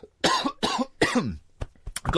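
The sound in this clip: Coughing from crumbs caught in the throat: three harsh, loud coughs in quick succession, followed by a few short, fainter throaty sounds.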